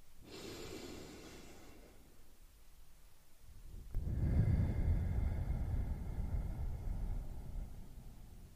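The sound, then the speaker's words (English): A guided deep breath: a slow, airy inhale, a quiet pause, then a longer and fuller exhale that rushes out steadily. The whole breath is soft, and no one speaks over it. “Let's begin by taking a deep breath in and a deep breath out.”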